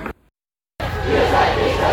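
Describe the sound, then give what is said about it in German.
Street protest crowd at a blockade facing police: a dense, steady roar of many voices cuts in after a brief silence and stays loud to the end. “Ihr hört hier im Hintergrund die Blockade, die sich aus Hochheim gelöst hat Richtung sozusagen Stadt, Richtung Wartburgstraße.”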